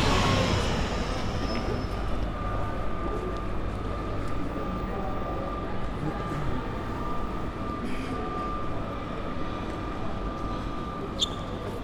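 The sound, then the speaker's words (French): Railway station ambience in Marseille with trains, a steady low rumble under a thin sustained tonal whine, ending with a brief sharp click. “Gare Saint-Charles.”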